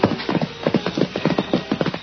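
Horse hoofbeats as Tonto rides in, a rhythmic clip-clop of hooves striking the ground in quick, uneven pairs, moderately loud and steady throughout, with no talk over it.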